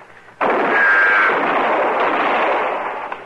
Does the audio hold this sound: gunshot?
yes